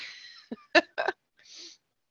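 A sneeze comes as a few short, sharp bursts of breath separated by brief pauses, moderately quiet and with no other sound around it.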